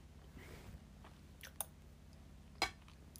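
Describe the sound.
Quiet chewing of cake with chocolate chunks, soft moist mouth sounds broken by a couple of sharper clicks and crunches.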